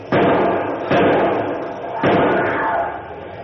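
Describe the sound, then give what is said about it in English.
Heavy safety door of a panther enclosure being wrenched open, three loud, heavy surges of grinding, rumbling noise, each starting abruptly and fading slowly into the next. “get that safety door open so I can get out. Quickly.”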